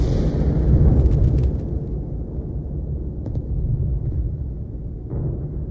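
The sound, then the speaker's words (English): Atomic bomb explosion over the Japanese industrial city of Hiroshima in 1945: a loud, booming blast roar that gives way to a long, darker, low rumble that slowly subsides. “On August 6th, 1945, the United States dropped an atomic bomb on the Japanese industrial city of Hiroshima.”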